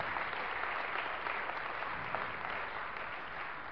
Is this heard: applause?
yes